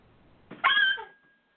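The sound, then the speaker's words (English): A puppy gives a single short whine, a high-pitched tonal cry of about half a second that trails off quickly against a quiet background. “Sorry. My puppy. That's okay. She was going to cry for some strange reason.”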